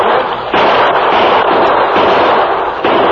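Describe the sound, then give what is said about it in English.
Gunfire in a shootout with outlaws firing from the back windows of a building: a dense, loud, continuous crackle of shots with a few sharper bursts over about three seconds. “They're shooting from the back windows.”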